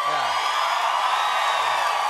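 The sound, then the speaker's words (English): A raucous live studio audience at a talk show cheers and whoops in a loud, unbroken roar, with a few low voiced whoops rising above the crowd noise. “this crowd is raucous”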